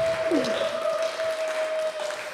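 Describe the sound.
Audience applause, steady and continuous for a couple of seconds, a dense patter of clapping with a thin, sustained tone running over it.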